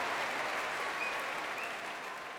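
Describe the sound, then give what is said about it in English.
Applause from a concert audience at the Royal Albert Hall after a BBC Symphony Orchestra performance: dense, even clapping that holds steady throughout, fairly faint, with no voices standing out. “That's live, of course, from the Royal Albert Hall, but with cheers ringing out all around me.”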